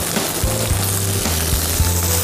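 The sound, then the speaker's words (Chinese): Duck breast frying in rendered duck fat gives a steady, continuous crackling sizzle, with a low hum running underneath throughout. “我现在直接用鸭油来煎鸭胸。”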